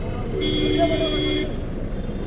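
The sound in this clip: Street traffic on crowded, chaotic roads, where the cars, scooters and bicycles move slowly: a steady, loud roar of vehicles with a faint tonal hum running through it.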